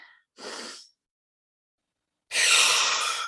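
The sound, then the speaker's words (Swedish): Deep breaths during a guided meditation, drawn in through the nose and let out through the mouth: a soft, airy inhale, a silent pause, then a longer and louder breathy exhale. “Så vi börjar ta tre djupa andetag in genom näsan och ut genom munnen”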